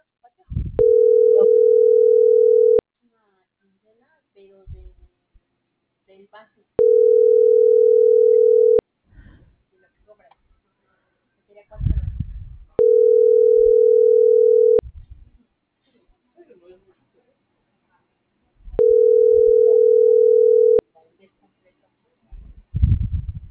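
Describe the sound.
A telephone call rings unanswered: four steady, mid-pitched ringback tones, each about two seconds long, separated by pauses of similar length. Faint low rumbles and clicks sit in the gaps.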